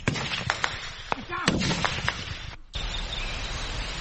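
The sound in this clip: Gunfire in a forest during fighting between soldiers and rebels: a series of sharp shots cracks at irregular intervals over a dense, rough background roar.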